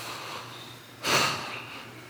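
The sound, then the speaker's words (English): A person imitates taking a breath with one short, loud, airy inhale that rushes in over faint background hiss. No one speaks during it. “and he took a breath.”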